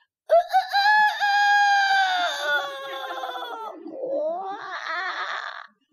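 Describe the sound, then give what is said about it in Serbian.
A rooster crows loudly in one long, strained, drawn-out call that sags in pitch toward its end. A shorter, harsher rising phrase follows it. “I petao kukuriknu kada moje grlo viknu.”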